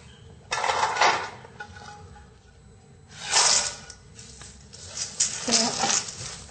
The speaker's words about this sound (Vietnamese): giúp chị cho tất cả phần nhân vào thao